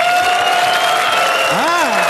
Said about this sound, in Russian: Чувствуете, мужики хлопают, им все пофигу.